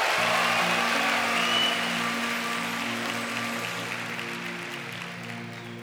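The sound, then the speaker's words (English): An audience claps to welcome a singing duet onto the stage, a broad, steady burst of applause over sustained low instrumental tones that slowly thins toward the end. “Now put your hands together, everyone, and welcome the duet of Shlomi Gertner and Avram Fried.”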